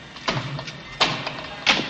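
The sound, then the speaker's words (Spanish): Sharp blows strike the padlock of a shoeshine box in a subway corridor: three short, evenly spaced knocks, each cut off quickly. “en el pasillo del metro, de un golpe seco, fuerzan el candado de una caja de limpiabotas.”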